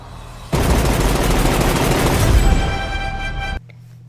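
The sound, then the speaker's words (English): Rapid, continuous gunfire as a gun empties an entire clip: a dense, loud, unbroken burst of shots lasting about three seconds, with no talk over it. “He just emptied an entire clip into a guy's face.”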